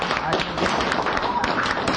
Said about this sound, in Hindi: तो बहुत ताली बजा सभी